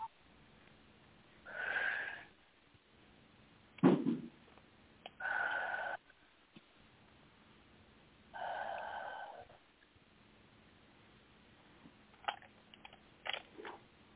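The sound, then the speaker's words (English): Deep breaths taken during a guided breathing exercise: a few long, airy inhales and exhales, separated by short pauses, with no talking over them. “And now take 3 deep breaths.”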